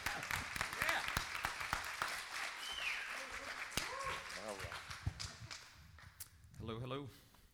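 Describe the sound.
An audience applauds to welcome a speaker, with many sharp claps rattling through the first part before the clapping thins out and a voice begins talking.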